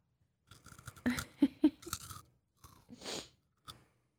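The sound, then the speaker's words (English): Crunchy food being chewed: a few loud, crisp bites and crunches, then softer, wetter mastication with short gaps between chews, and no talk over it. “You can't be chewing on the podcast.”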